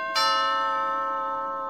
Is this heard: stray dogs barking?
no